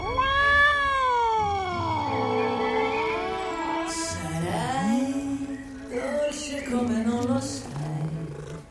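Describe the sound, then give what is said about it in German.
A cat meows while being stroked: one long, drawn-out cry with sliding, wavering pitch, followed by several shorter meows, all clear and fairly loud. “Ich muss die Katze streicheln.”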